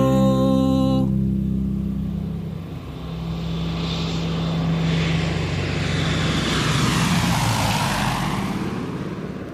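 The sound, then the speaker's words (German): A small airplane flies over a motorway, its engine a steady, loud drone with a broad rushing roar. A brief hum opens the sound, which dips slightly and then swells again. “Inzwischen fliegt Pitt die Autobahn ab und funkt Etienne im Tower seine Beobachtungen.”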